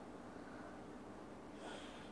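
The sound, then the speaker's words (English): Soft nasal breathing from alternate-nostril Anulom Vilom yoga practice: a faint, steady airy rush through the nose that swells slightly near the end, heard without talk. “inhale via left nostril, release it with the right nostril.”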